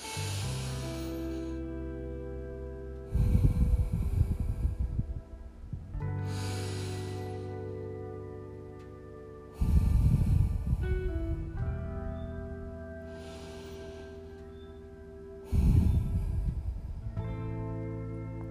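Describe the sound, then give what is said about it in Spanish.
Three slow, deep breaths during a guided breathing exercise, each a long airy rush spaced several seconds apart, over a soft, sustained musical drone. “Inhala profundo tres veces.”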